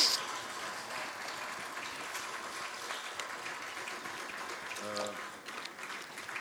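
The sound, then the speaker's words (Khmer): An audience claps for students at a gathering, a dense, even patter of applause sustained at moderate level, with a brief voice rising over it near the end. “ដូច្នេះឥឡូវសូមទះដៃឲ្យនិស្សិតតែម្ដងសូមទះដៃឲ្យគេលើផង”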